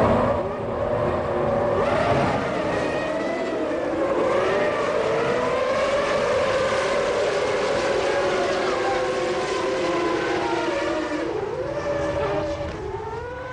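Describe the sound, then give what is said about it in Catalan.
Formula 1 race cars, including a Renault and a Ferrari, launching from the grid at the start of the Spanish Grand Prix at the Catalunya circuit: many loud, howling high-revving engines overlap continuously, their pitches sliding and shifting throughout. “Comença el 47è Gran Premi d'Espanya de Fórmula 1”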